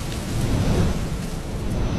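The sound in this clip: Heavy rainstorm: a dense, steady roar of pouring rain with a deep low rumble underneath, continuous and loud throughout, with no voices.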